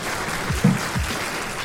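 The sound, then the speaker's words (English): Audience applause: a short, even wash of clapping, moderately loud and steady, with a couple of low thumps partway through. “Round of applause.”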